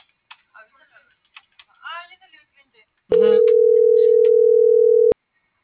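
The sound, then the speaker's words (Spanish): A phone call's ringing tone while dialing: after a few seconds of brief clicks and muffled sounds, a single loud, steady ring tone sounds for about two seconds, then stops abruptly. “José Manuel, te estoy marcando.”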